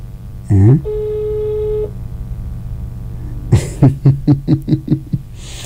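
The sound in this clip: Ringback tone on an outgoing phone call: one steady electronic tone lasting about a second after a short opening chirp, followed by a run of voiced bursts.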